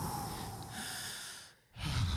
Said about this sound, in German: Jetzt atmen Sie doch mal aus. Ja, was? Sie sollen mal atmen.